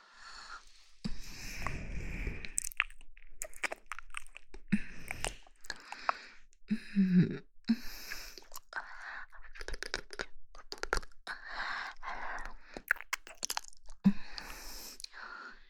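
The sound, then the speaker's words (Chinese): Wet licking and smacking mouth sounds, imitating a tongue licking along a neck, come in an irregular stream of soft clicks, crackles and slurps that rise and fall in intensity. “接下来要继续往下舔了。让姐姐好好品尝一下你的脖子。”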